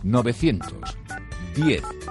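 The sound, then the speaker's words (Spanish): A telephone line sounds with bursts of bright electronic tones, short steady pitches that come and go within about two seconds, mixed with voice-like sounds that are loud around them. “corre para el teléfono que ya está sonando”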